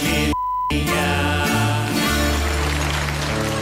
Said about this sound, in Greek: Το μπιπ στην τέχνη. Μάλιστα. Γίνεται τέχνη με μπιπ.